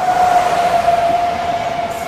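A train runs with a loud, continuous rumble under a sustained, steady high-pitched whine, heard alone with no voices.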